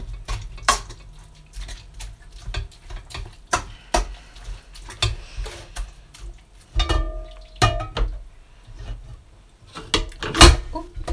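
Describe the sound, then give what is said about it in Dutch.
Grapes are pressed through a colander in a kitchen to squeeze out the juice, leaving the skins and seeds behind. Many irregular clicks, knocks and clinks of utensils sound against a quiet background, with one brief ringing tone partway through. “ga ik nu de druiven ga ik door het vergiet heen pletten, zeg maar. Zodat al het sap eruit kan”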